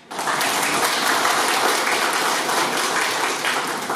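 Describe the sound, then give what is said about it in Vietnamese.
An audience applauds with loud, dense clapping that holds steady for about four seconds. Single claps blur into a continuous wash, and no voices are heard over it. “Đó, cái đó mới là vỗ tay đó.”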